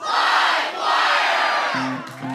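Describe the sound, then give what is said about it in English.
A live studio audience at Mississippi Studios in Portland, Oregon cheers and shouts in a loud, continuous roar that dips briefly and then swells again, with a few steady tones entering near the end. “Recorded in front of a live audience in Mississippi Studios in Portland, Oregon”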